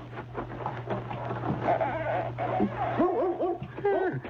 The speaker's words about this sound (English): Hey, that's a dog back here in the woodshed.